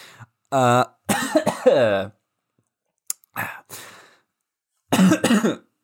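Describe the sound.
Someone coughs and clears their throat after something lodges in it: several harsh, voiced bursts in short clusters separated by pauses.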